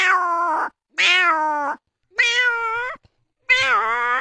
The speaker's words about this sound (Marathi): तसाच मांजर एक भुकेला झाल्यावर आपल्या जवळ फिरत, मग ती मांजर काय कशी काय आवाज देते.